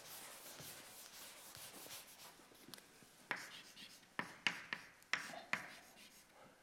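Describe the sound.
Writing on a board during a lecture: a soft, continuous scratchy rub with several sharp taps as strokes begin, clearest in the second half, all fairly faint.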